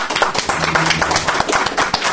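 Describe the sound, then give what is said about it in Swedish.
An audience applauds at a gathering, with many sharp hand claps blending into dense, fairly loud clapping that holds steady throughout. “Jag tycker vi ger dem en applåd”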